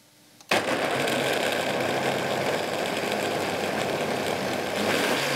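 A kitchen machine motor starts slowly with its lid on and hot contents inside. A steady, loud whirring hum comes in abruptly after a short quiet moment and holds at an even level.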